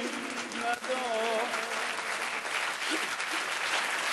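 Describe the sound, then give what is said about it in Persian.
Audience applause rolls on steadily as a dense wash of clapping hands, with a man's voice talking over it. “کف میزنن همه بزنن تا اون آخر دست بیاد بالا”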